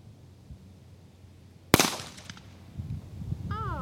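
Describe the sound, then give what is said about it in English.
A single sharp, loud crack from a small Smith & Wesson .22 handgun, fired once, followed by a quick decaying ring over a quiet background. “Well, I have shot a gun. You have fired a gun. There we go. It was loud.”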